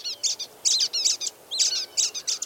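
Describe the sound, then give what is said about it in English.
High, thin chirps and twitters from birds foraging in the upper branches of tall longleaf pines in a Florida forest. The bright calls come in many quick clusters, steady and fairly faint, with no other sounds. “Twittering constantly, the birds probe for tiny insects or extract seeds from cones in the tree's upper”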